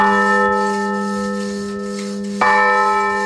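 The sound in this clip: A church bell rings at a village church in Granyena de Segarra; the bell was cracked by cold and later repaired with a new yoke. Loud, rich ringing tones sustain, then a fresh strike near the end renews the ring.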